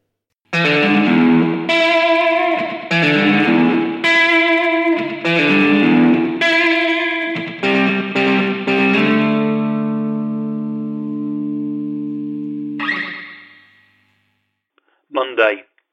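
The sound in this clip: Twangy electric guitar, thick with chorus and echo effects, strums a run of chords and picked notes, then lets one chord ring out and fade. Two short, sharp noises follow at the end.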